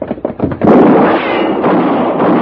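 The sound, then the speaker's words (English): A gunshot fired at a man rings out as a loud, sharp blast after a few quick faint knocks, then trails into a sustained noisy rumble that fades only slightly. “Mr. Paladin, are you all right? Yeah. You shot at that man. You killed him.”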